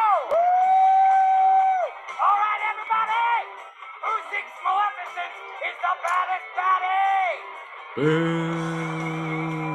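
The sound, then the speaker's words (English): An audience booing a villain at a Disney cruise musical show: many voices make drawn-out calls that rise and fall in overlapping waves, then a lower, sustained boo swells near the end. “Boo for your favorite villain! Evil Queen!”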